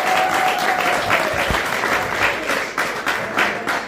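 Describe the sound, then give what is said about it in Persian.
Church audience applause offered for God during a service, dense and steady clapping that holds loud throughout with slight swells. “خب خدا رو شد یه دست برای خداوند بزنید، یه دست بزنید.”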